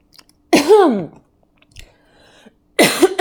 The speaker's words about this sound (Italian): Mi è andato di traverso